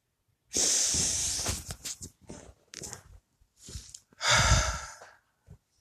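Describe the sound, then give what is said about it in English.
Deep breathing during a stress-relief relaxation exercise: two long, loud airy breaths, one at the start and one near the end, with softer, shorter breath sounds between them and no talking. “So let's begin. 3 deep breaths.”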